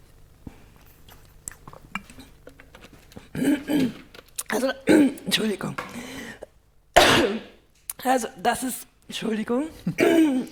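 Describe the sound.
A speaker with something caught in the throat coughs and clears it, with several harsh rasping bursts scattered between stretches of talking.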